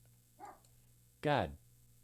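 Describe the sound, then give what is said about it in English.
A dog barking twice, a short softer yelp followed by a louder, fuller bark, both faint over a quiet background hum. “My dog just got out. I heard him. I hope you did. Sometimes he just wants to get in on the show. That's my dog, Oscar. So if you heard a dog barking in there, that's him.”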